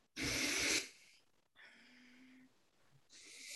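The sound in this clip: Heavy, hyperventilating breathing by a person raising their anger in a rage-release exercise: a loud, forceful breathy burst, then softer ragged breaths with a faint tonal edge, then another strong breath building at the end.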